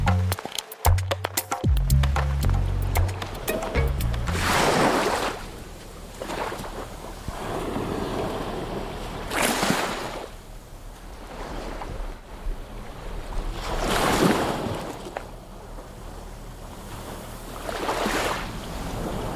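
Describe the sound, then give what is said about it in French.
Sea waves wash onto the seashore in four broad surges a few seconds apart, each swelling and fading, over steady wind noise. A few sharp handling knocks sound at the start. “Aujourd'hui, on est au bord de la mer.”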